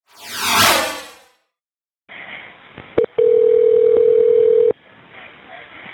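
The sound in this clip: Telephone line sounds from a recorded 911 call: a swooping whoosh opens, then after a gap comes hissing line noise, a sharp brief beep and a loud steady dial tone of about a second and a half before the hiss returns.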